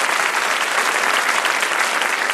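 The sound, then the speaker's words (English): Audience applause after a spirited debate: a dense, even wash of many hands clapping, loud and unbroken across the whole stretch with no talk over it. “I'd just like to give them a round of applause.”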